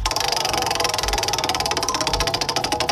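Rapid clicking of a prize wheel being spun for a country music trivia game, a fast, steady run of ticks that fills the whole clip without pause, and no voices.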